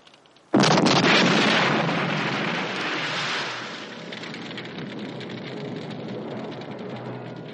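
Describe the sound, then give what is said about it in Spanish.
A tank's turret gun blasts a hole in a bank door in a 1970 war film scene. A single sudden, heavy explosion gives way to a long, rumbling, crackling decay that slowly thins out. “Lo único que tiene que hacer para tener su parte de ese dinero es volver la torreta y abrir un boquete en la puerta.”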